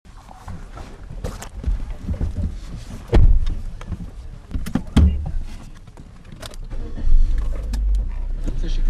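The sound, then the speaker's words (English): A car drives into the occupied Palestinian territories of the West Bank, its steady low road and engine rumble running throughout, with a few heavier thumps and bumps breaking the drone. “Background Briefing is driving into the heart of the occupied Palestinian territories, the West Bank.”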